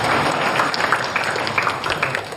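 An event audience applauds to welcome the founder of a white crane protection area in Nanchang to the stage. The clapping is steady and dense and stays at an even level throughout.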